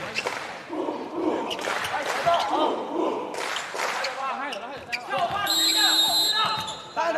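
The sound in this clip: A left-handed, powerful jump serve in a volleyball match at a school sports event: the ball is struck with a firm thump amid steady crowd noise and cheering. A voice talks throughout.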